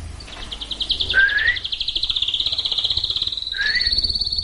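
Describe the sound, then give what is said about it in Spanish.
A pair of caged birds chirps in a rapid, high-pitched, continuous trill, broken twice by short rising chirps. “Luego saluda a un par de pájaros que hay en una jaula.”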